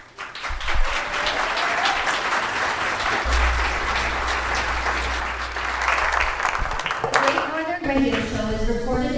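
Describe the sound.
Live studio audience applause fills the room, sustained clapping mixed with a few whoops and shouts, before a voice begins speaking as the clapping fades near the end.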